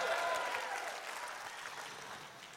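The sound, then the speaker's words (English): A church audience applauds and cheers during a sermon, a broad, steady wash of clapping that fades gradually toward the end. “if you want to be more like Jesus, make a little noise in the room right now.”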